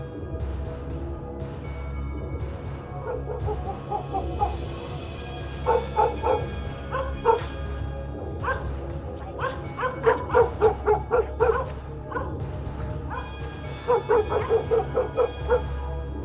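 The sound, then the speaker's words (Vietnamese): Dogs bark in repeated bursts near a village graveyard at night, with higher whining yips between the louder runs of barking and no voices. “Xung quanh chỉ là tiếng chó sủa, tiếng chó tru.”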